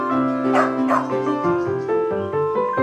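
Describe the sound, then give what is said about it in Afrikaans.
A small black mongrel dog barks a few times, with sharp, fairly high yaps that stand out over a steady tonal background. “'n klein swart brakkie”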